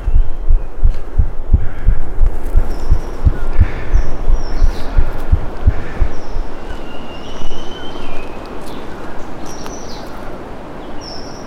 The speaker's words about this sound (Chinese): 我现在在录自己的心跳，在录自己的心跳。